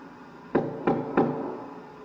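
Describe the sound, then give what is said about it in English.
Three sharp knocks land in an even rhythm, each a short, dull thud standing alone against a quiet background. “Can you knock again to see if it could have been the vibration? There was a single knock. Yep. I'm going to knock again.”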